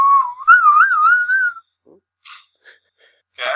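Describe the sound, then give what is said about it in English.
A person whistles in place of a drum roll: one wavering, trilling tone held for about a second and a half, then a few faint, brief noises. “he's not giving you a drum roll, he's whistling instead.”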